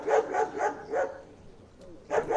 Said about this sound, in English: Sniffer dogs and police searched vehicles in Brasilia